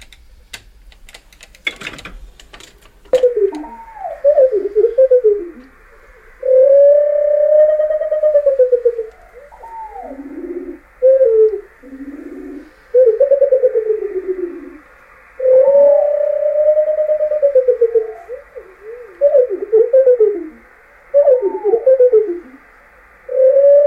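Birdsong played back slowed about eight times, from a bird that sings while climbing and circling in flight: drawn-out, slurred whistles that swoop up and down, broken by short gaps and quick trills, after a few sharp clicks at the start.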